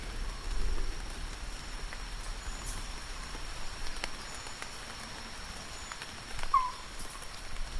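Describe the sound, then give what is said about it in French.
Rainwater dripping from forest leaves after a shower: a soft, continuous patter of countless small drops forming a gentle hiss, with scattered faint ticks of single drops standing out here and there. “Donc on entend là, voilà, on a bien entendu, et on entend là le ruissellement de la pluie sur les feuilles après l'averse. Là, on entend la forêt qui s'essore.”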